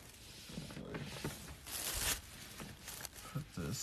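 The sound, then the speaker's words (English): Soft fabric rustling and crinkling as a Champion garment is folded and tucked into a bag. Quiet, uneven rustles and brushes with short louder swishes. “Fold it up and put it in her bag.”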